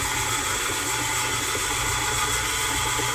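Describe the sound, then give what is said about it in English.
A stand mixer with the paddle attachment mixes dough, giving a steady, loud motor whir and hum that holds unchanged throughout, with no voices. “mix up the dough, put the paddle attachment on, and crank it into place.”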